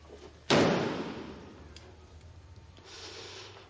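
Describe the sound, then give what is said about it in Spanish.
A door slammed shut: one loud, sharp bang followed by a long decaying rumble, with a faint, steady background hiss afterward. “abre la puerta para salir y la cierra de un portazo.”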